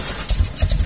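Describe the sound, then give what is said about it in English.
Struggling diesel truck engine gives a low, rough rumble with uneven throbbing pulses. It is loud and heard alone for about a second. “That sound is a major headache. For diesel truck and fleet owners, a struggling engine means lost time”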